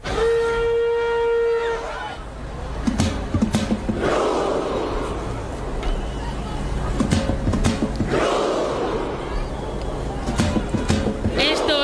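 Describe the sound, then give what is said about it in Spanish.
Football fans at a World Cup match doing the Viking clap chant: a sustained horn tone opens, then several deep, unison crowd shouts with sharp claps land at slow, spaced intervals over a constant loud crowd roar. “El Viking Row, que ya se ha hecho viral en TikTok, que lo hacen los noruegos y los que no son noruegos.”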